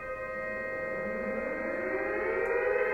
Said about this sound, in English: what's that? Sirens. We've heard them before. It's probably just another drill.